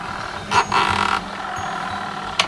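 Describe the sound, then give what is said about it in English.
A motor taken from an old windshield wiper runs in a homemade contraption, a steady low hum with one louder whirring whine partway through and a short sharp click near the end. “It's the motor of an old windshield wiper.”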